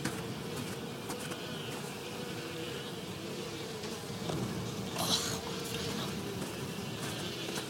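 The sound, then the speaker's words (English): Insects buzz as a swarm of hungry black bugs hovers over a small pool of congealed blood. The dense drone holds steady and continuous throughout, with no voices. “Up ahead, there's a mess of black bugs.”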